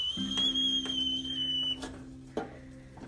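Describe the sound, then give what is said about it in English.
A teapot whistles as its water boils, a steady, thin, high-pitched tone that holds for a while and then cuts off partway through, over a low hum and background noise. “the teapot is about to burst. There it goes. It's ready to whistle.”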